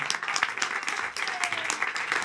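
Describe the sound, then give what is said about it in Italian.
An audience at a comedy show applauds as a comedian is introduced, a dense, sustained wash of clapping that stays loud and steady throughout. “Un applauso fortissimo per Wendy Lafortu”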